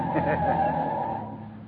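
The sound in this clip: Tires skid in city traffic on Christmas Eve, a sustained screech over the low drone of car engines. The noise stays loud, then eases slightly toward the end.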